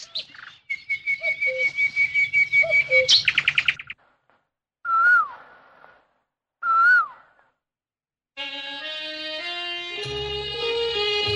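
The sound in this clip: Birds chirp and whistle as they fly back to their nests. A quick run of bright, high chirps comes first, then two separate clear whistled calls, each with a dropping tail, followed by a sustained layered tonal sound.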